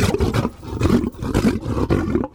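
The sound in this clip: A group of people imitate a lion's roar, giving several loud, rough, growling roars in quick succession with short breaks between them, and no speech.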